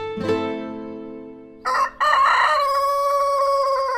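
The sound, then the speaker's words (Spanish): A rooster crows loudly in long, drawn-out, strongly harmonic calls, with a short break midway before the crowing resumes and holds to the end. “y justo cuando estaban colgando al peregrino, el gallo asado se levantó y cantó.”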